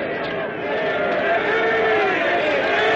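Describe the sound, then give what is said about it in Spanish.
Townspeople and knights cheering in a scene from a historical epic film. A dense, steady roar of many voices swells slightly after a brief dip at the start. “Gentes del pueblo y caballeros les vitorean para su sorpresa.”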